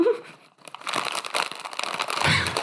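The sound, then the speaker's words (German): A bag of crisps crinkles and rustles, added as a sound effect: a continuous stream of crackly, papery bursts that starts faint and swells louder, with no voices. “Kai, ich habe eine Chipstüte hier liegen. Wenn du möchtest, dann blende ich das einfach ein.”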